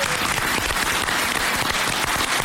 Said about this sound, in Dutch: Ja, applaus, dames en heren.